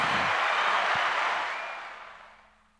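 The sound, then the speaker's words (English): Applause for a departing guest: a small group claps steadily, then the clapping gradually fades out over the last second. “we'll give her a hand.”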